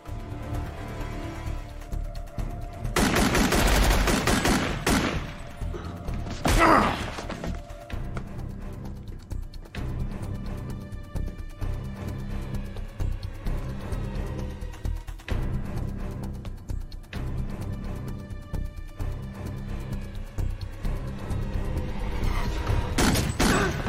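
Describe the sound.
Gunfire in a combat scene crackles through a dense, continuous din, with rapid bursts of shots and heavier booming surges at a few points across the stretch.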